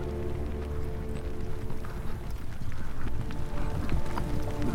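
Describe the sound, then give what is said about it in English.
Horses' hooves clop as riders ride back toward a city gate, a dense and continuous run of many hoof strikes over a low rumble, steady and fairly loud throughout. “Aragorn and Éomer and Imrahil rode back towards the gate of the city, and they were now weary beyond joy or sorrow”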